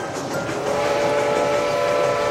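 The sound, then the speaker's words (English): A miniature steam train in an amusement park sounds a steady, sustained whistle tone over a continuous rumbling running noise. “Oh, here comes Mr. Walt Disney now on the miniature steam train.”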